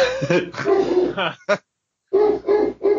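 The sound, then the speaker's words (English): Dog barking at something outside, a run of loud, harsh, tonal barks and yelps in quick bursts, with one short silent gap partway through before the barking resumes. “That's just my dog yelling at nothing. There's probably a bunny or something outside.”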